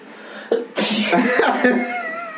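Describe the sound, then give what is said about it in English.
A single loud, sharp sneeze bursts out after a brief vocal catch, trailing into voiced, breathy sounds afterward. “I just sneeze, we're in.”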